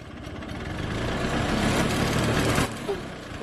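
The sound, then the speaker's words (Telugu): An auto rickshaw engine runs as the vehicle approaches, a rough, steady rumbling drone that swells slightly and then drops back near the end. “ఏదో auto వస్తుంది, ఆపండిరా ఆటోని.”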